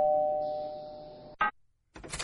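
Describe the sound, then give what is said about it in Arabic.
A doorbell rings at an apartment door with a steady, sustained electronic tone lasting over a second. A short sharp burst follows, then a brief silence and some rougher noise. “اضرب الجرس”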